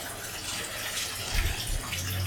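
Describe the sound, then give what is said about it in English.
A bathtub fills with hot water in an apartment, a steady, fairly faint rushing gush of running water continuing throughout with slight surges. “Pour it in, watch the steam rise, and step into water that's just a notch above tepid. The whole idea is to feel nothing, after all. Fill the tub all the way up.”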